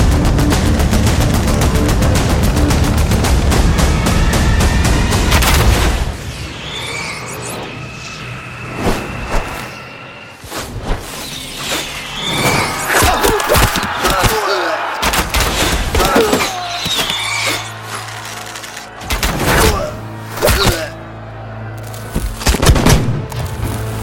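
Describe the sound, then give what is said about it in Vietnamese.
Massed gunfire volleys shot blindly into thick fog by a large army. Dense, continuous firing roars for about six seconds, then breaks into scattered sharp shots and heavy thuds with brief pauses between bursts. “Thưa đại nhân, sương mù dày đặc như vậy, ta phải bắn cho đủ đây. Cù gấp, bọn chúng chỉ có vài ngàn, quân ta đến mấy vạn. có nhắm mắt bắn bừa thì cũng khiến chúng phơi thay. Bắn bao trùm cho ta.”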